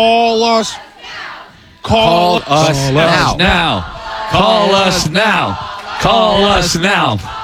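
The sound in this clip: Call center staff chanting together, a loud group of mixed voices shouting a rhythmic phrase in unison several times with short breaks between repetitions.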